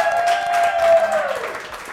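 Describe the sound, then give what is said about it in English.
A studio audience claps and cheers, with whoops and hollers over the applause. A sustained high holler glides slightly downward and fades near the end. “I would like to very much thank our studio audience. Would you guys like to hoop and holler for us?”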